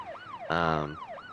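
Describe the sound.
A police cruiser and ambulance siren arriving, its wail sweeping repeatedly down and then up in pitch, interrupted midway by a brief, loud, steady buzzy blast before the sweeping resumes.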